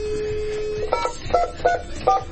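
A steady telephone line tone on a radio station's Sestel call line holds for almost a second, then gives way to four short, evenly spaced dialing beeps over a low background hiss.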